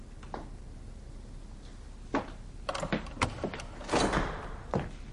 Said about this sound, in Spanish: Abre una puerta acristalada y se asoma al interior. ¿Hola? Cierra y camina hasta unas escaleras de bajada.